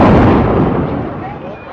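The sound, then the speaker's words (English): A bomb blast at a Syrian Catholic church in central Baghdad comes through as a loud, broad rumbling roar that slowly fades over under two seconds. “Moments later, she recorded a second blast.”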